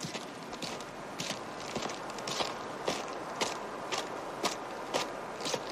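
People walk along a trail, their footsteps landing as many soft, evenly spaced steps in a steady rhythm over faint background noise.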